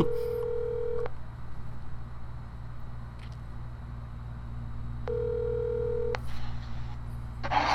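Telephone ringback on an outgoing call: two long, low, steady ringing tones separated by a few seconds of quiet line, over a constant low hum, with no voices.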